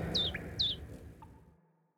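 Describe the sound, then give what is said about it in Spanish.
A hummingbird chirps in flight: two quick, high-pitched notes that each sweep downward, then a fainter short note over a soft low rumble that fades away. “El picaflor voló hasta el campesino y le contó dónde estaba su hija.”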